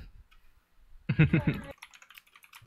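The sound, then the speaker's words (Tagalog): Quick keyboard typing comes as a short, dense burst of clicking keys in the middle, with faint scattered taps before and after. “ang bilis mag-type na na sino nagta-type.”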